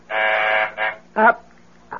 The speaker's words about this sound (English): That's the phone buzzer from downstairs, dear. I have to answer it.